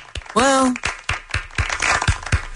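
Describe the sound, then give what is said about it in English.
One person clapping their hands: several sharp, separate claps at an uneven pace, with a voice speaking briefly near the start. “I'll clap for myself. All right. Clap.”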